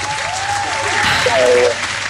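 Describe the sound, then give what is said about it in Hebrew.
An audience gives a round of applause after a song is hummed. The clapping is steady and full, and a wavering voiced tone rises and dips over part of it. “אבל רק בגלל שזה שיר טוב אנחנו ככה נותנים לך את הכפיים”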